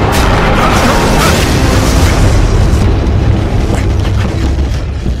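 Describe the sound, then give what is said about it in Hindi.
Cannon shells exploding nearby in a battle, a loud, sustained roar of overlapping booms and rumbling blasts that stays dense throughout. “तोप के गोले खत्म हो रहे हैं, 10 सेकंड से ज्यादा नहीं लगेंगे। कुछ गोले सीधे हमारी तरफ आ रहे हैं, तैयार हो जाओ।”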